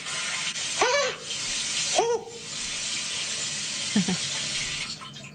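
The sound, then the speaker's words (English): Water spray from a bidet's bum wash setting, a steady, hissing rush of water that runs throughout, with a few short vocal exclamations rising over it. “Here, listen, before we go to break, here he is on the bidet. Button that says bum wash. I'm just going to turn it, and I don't know what's going to happen.”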